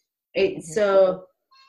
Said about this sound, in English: Sorry, that's my cat.